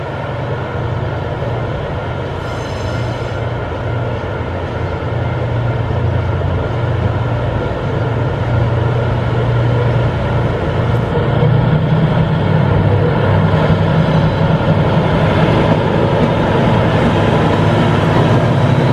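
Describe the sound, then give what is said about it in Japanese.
A DF200 diesel locomotive departs a freight station hauling heavy container freight. Its engine gives a loud, steady low drone over broad rumbling noise for the whole stretch, with no voices. “この DF200、新富士釧路貨物駅を出発する時のことをちょっと早速聞いていただきたいと思います。”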